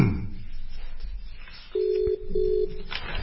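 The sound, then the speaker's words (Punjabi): Telephone tones as a call is placed, with two steady mid-pitched beeps separated by a short gap, over a quiet background hiss. “ਤੇ ਆ ਲਓ ਜੀ ਅਸੀਂ ਰਜਿੰਦਰ ਸਿੰਘ ਜੀ ਹੁਣਾਂ ਨੂੰ phone ਕਰ ਦਿੱਤਾ।”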